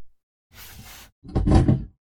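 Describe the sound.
A drawer holding lotion slides open with a soft sliding rumble, then a louder, rougher scrape, with no talk.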